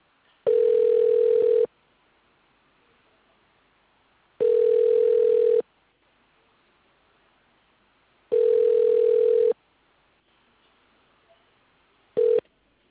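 Telephone ringback tone heard while dialling: three evenly spaced, steady tones of just over a second each, about four seconds apart, with a fourth cut short at the end, over a faint quiet line.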